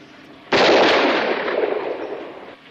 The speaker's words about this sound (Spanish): Empuñe el arma. Ande, dispare.